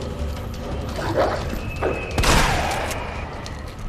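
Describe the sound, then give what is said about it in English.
Shotgun blasts in a video game: a few dull, booming thuds over a constant background rumble, the heaviest and sharpest one coming near the end. “Okay, I feel like I'm wasting shotgun shots if I do that.”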